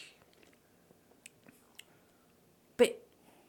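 Faint chewing on a fruity snack said to taste like Fruit by the Foot, a first taste: soft scattered clicks and small bites, then one louder crunchy, squishy bite near the end.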